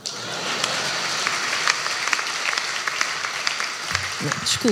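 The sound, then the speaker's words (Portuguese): Applause from an audience at a comedy roast, steady clapping for about four seconds, after which a voice begins speaking. “Por falar em palhaços, palmas para o Gel.”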